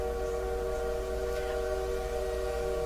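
Steady droning rumble inside a moving train, a continuous even hum with a few sustained tones, unbroken and without talk.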